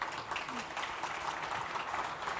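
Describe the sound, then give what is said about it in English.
Audience applause for a guest at the close of an afternoon conversation event: a steady, dense wash of clapping at even loudness throughout, with no clear individual claps standing out. “Please give an applause to Glenn.”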